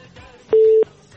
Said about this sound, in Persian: بله خب تماس دوست ما قطع شد و میریم تماس بعدی رو میگیریم